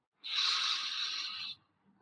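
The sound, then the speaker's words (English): A single deep breath in during a guided breathing exercise: one long, smooth, airy inhale of just over a second, fairly quiet and alone, ending abruptly. “Let's do that again. Deepest breath in.”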